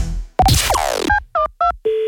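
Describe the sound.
A telephone being dialed to call an office: a burst of handling noise and a sweeping tone, then three short two-tone beeps, ending on a steady lower tone as the line rings out.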